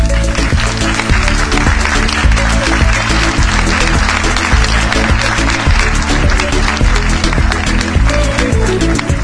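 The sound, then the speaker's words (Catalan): Audience applause fills the auditorium at the start of a children's spelling-game show's grand final at a civic centre in Barcelona, a loud, dense and continuous wash of clapping that holds steady throughout. “us demanem que no aparteu els ulls de l'escenari i que aplaudiu amb totes les vostres forces.”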